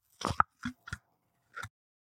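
The pull tab comes off an oat drink container with a few short, crisp clicks and pops, closely bunched at first, then one more after a brief pause.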